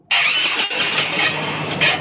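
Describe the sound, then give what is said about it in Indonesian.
A motorcycle's starter cranks after the engine has suddenly stalled, giving a loud, continuous grinding whir with rapid pulsing and a few short surges that never settle into a steady run. “Anapa motor apa? Monggo ki. Monggo, padahal perut nyaman, tiba-tiba mati. Starter tak hidup.”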